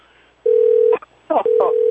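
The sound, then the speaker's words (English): A telephone rings in two long, steady, loud electronic tones, each about half a second, with brief voice-like sounds between and after them. “Oh, here we go with the phone again.”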